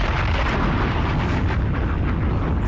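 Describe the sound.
A bomb explosion sound effect: a loud, sustained roar and low rumble with no distinct separate blasts, steady throughout.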